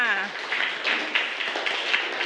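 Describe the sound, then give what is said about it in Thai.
Students in a class clap for group 5. A voice speaks briefly at the start, then scattered, uneven clapping follows for about two seconds. “เยี่ยมมากปรบมือให้กลุ่ม5ค่ะ”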